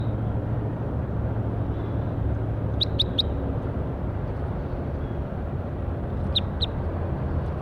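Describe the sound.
Bird calls sound as short, high chirps: a quick group of three, then a pair a few seconds later. Each stands briefly above a steady, low background rumble.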